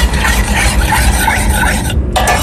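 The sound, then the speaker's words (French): Stirring a flour mixture heating gently in a pan: a loud, continuous scraping swish of the spoon with a soft sizzle beneath, broken by a brief pause near the end. “il faut faire chauffer doucement, bien mélanger, surtout rester devant et vérifier pour pas que ça fasse des morceaux de farine et que ça épaississe trop”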